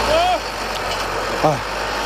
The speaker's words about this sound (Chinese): 旋耕机马力全开，不到半小时的时间就将一亩多的农田耕完。